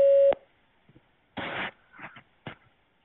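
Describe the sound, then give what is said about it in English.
A telephone voicemail system sounds its recording tone, one short steady beep at the start, followed by a few brief scattered noise bursts and quiet gaps. “After the tone, record just your first name.”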